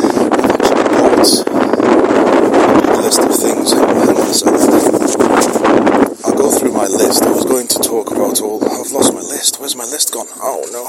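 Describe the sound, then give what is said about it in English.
Wind blows outdoors, buffeting the microphone with a loud, steady rush of noise that gusts throughout, with a brief dip near the middle. “And the wind is very natural.”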